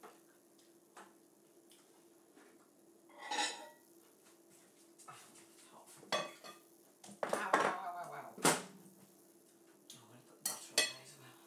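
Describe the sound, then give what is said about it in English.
A knife scraping something off a surface, with metal utensils clinking against dishes: several irregular scrapes and sharp clinks, fairly faint, growing busier toward the end. “I'm just gonna get this off with the knife.”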